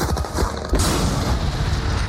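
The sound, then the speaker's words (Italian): Bomb explosions with urgent, driving music from a film trailer: a loud, dense wall of booming blasts that surges sharply partway through. “Bombe, musica incalzanti, immagini veloci, tanta storia.”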